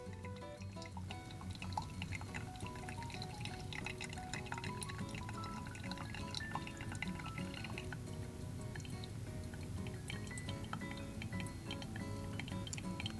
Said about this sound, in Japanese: 30秒が経ったのでもう一度 100cc のお湯を入れていきます。